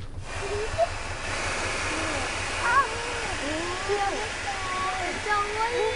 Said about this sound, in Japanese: 水圧でホースがだんだん上に上がっていってますね。